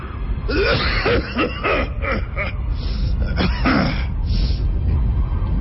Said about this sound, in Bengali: নানা বিদঘুটে অদ্ভুত আওয়াজে কাশতে শুরু করল আগন্তক, মিনিট দুয়েক পর শেষ পর্যন্ত কাশি থামলে বলল